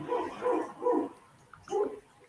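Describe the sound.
A dog barks four times, fairly faint and mid-pitched: three barks in a quick run, a short pause, then one final bark.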